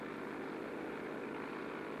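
A propeller airplane engine drones steadily in flight high over steep mountain peaks, a continuous, even roar that holds without any break or change, with no voices.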